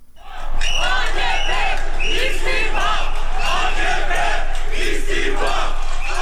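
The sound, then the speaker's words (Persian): A crowd of street protesters in Istanbul, Turkey, chants during demonstrations over a currency collapse, demanding the president's resignation. Loud massed voices rise quickly at the start, then sustain a continuous, rhythmic roar of shouted cries. “این صدای معترضانی است که خواستار استعفای رجب طیب اردوغان هستند.”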